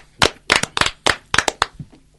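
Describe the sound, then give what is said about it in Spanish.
Applause for a sponsor who sent wines, a handful of sharp, separate hand claps in an uneven rhythm, fairly loud and thinning out toward the end. “Un aplauso para Orlando.”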